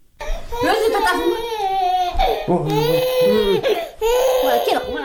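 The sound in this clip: A little girl cries in loud, wailing sobs while her mother comforts her at home in a large family. The long, strained cries break off twice, and a lower adult voice is briefly heard between them.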